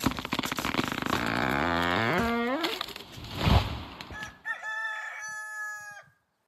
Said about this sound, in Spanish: ¿Todavía sigues cantando?, gritó don Pepe. Ya no tienes árbol, ¿recuerdas? No tengo árbol, dijo el gallito